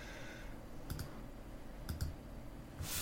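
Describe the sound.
Computer mouse clicking as a baseball statistics web page is opened: two quick double clicks, sharp but faint, over a low steady hum.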